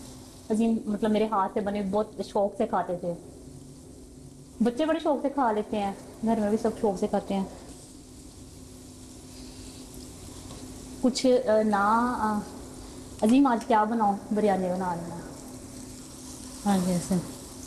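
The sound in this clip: Frying sizzle from a pan while cooking biryani, a soft, steady hiss running beneath a person talking on and off throughout.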